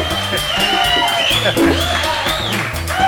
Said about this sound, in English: Welcome to Mantos Live, recorded in front of a live audience.